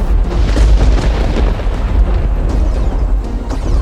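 American artillery fires on a mill during a siege, producing a loud, continuous barrage of deep booms and rolling rumble that overlap densely with no pause between blasts.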